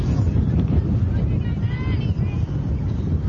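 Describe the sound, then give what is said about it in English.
Outdoor wind during a baseball game makes a steady, fairly loud low buffeting roar with a broad hiss that runs continuously. Faint, indistinct voices are mixed in. “And you can hear that wind rustling outside.”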